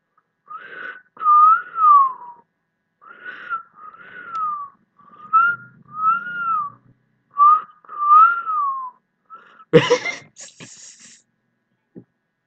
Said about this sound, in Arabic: انا المفروض انا اصفر واقولها بقى. انا المفروض اللي انا صفرت يبقى انا اللي اقولها.